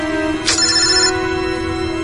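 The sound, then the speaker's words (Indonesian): A mobile phone ringtone for an incoming call plays as a steady electronic tone with a bright swooshing accent near the start. It is moderately loud, with no voices. “Ada panggilan masuk. Kulihat di handphoneku ada nomor tidak dikenal.”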